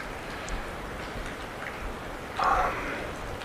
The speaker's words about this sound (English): And then I go back to the sound I feel around me, that with the raindrops.